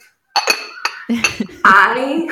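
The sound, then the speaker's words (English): Lid of a small, palm-sized olive green Le Creuset pot clinking: a few bright, sharp clinks and rattles, followed by a louder, sustained ringing sound. “This is the sound of its lid saying, hi.”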